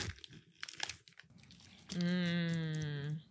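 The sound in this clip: Chewing a crunchy pretzel and cheese snack, with brief crisp crunching followed by a drawn-out hummed note of approval from the eater.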